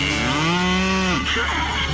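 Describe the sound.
A cow gives one long, low moo that holds steady, then drops and breaks off near its end, loud and alone with no talk.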